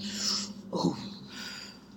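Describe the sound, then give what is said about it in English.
A group of people take a deep breath in together before a prayer. It is a soft, breathy rush of air with a brief snort-like swell in the middle, faint, with no talk. “So everyone take a deep breath in and we're going to pray.”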